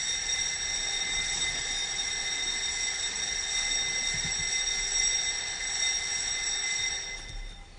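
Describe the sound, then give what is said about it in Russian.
A class bell rings continuously, a steady electric ringing with bright, sustained harmonic tones held at an even level throughout, with no voices. “Да, жалко, что звонок звенит. Я-то думал, увижу ваши кроткие лица, а тут звонок прозвенел.”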